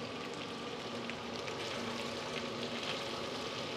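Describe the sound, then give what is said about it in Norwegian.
Food sizzles in a small frying pan as it is left to cook, giving a steady, even hiss with fine crackling and no pauses. “Men du bare la det koke. Steike inn.”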